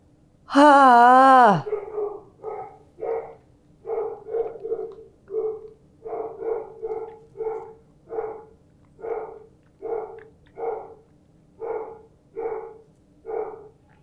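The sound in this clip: A dog barking: many short, evenly spaced barks in a steady rhythm for about fourteen seconds, moderately loud. A longer wavering sound opens the sequence.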